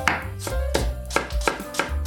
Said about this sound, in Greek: Κόβουμε εξαιρετικά μήλα ζαγορίν σε λεπτές φέτες ή σπιρτόξυλα.